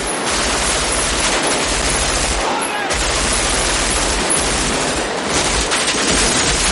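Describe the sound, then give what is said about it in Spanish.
Loud, sustained gunfire in a police shootout, officers firing from a cordon while a robber shoots back from behind a car; dense rapid bursts of automatic fire with short breaks near the middle and again later. “Otros agentes les disparan desde un cordón policial. Chris sale y responde oculto tras un coche.”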